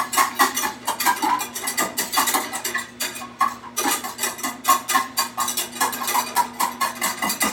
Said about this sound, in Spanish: Así, a fuego medio alto, vamos a estar mezclando para que la mantequilla no sepa a ajo.